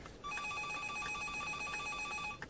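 A telephone rings in the hall of a country guest house: a steady, rapid electric trill with bright, even-pitched tones that repeat for the whole clip, with no voices over it.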